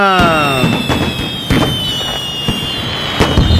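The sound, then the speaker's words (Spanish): Fireworks from a gross of pyrotechnics set off at a birthday party: falling whistles at the start, then a run of loud, sharp bangs and crackles over a steady high whistle. “Nosotros traemos una gruesa para explotarla como debe de ser. Y aquí viene la pirotecnia.”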